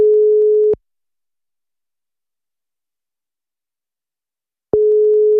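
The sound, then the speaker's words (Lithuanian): Telephone ringback tone while placing a call: a steady, single-pitched hum that sounds briefly, then gives way to a long silence before the same tone returns, two bursts in all. “Čia Ivonai paskambinau.”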